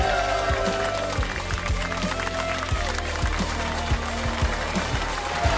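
Studio audience applause after a guest is thanked, a steady, dense burst of clapping that holds at an even level throughout.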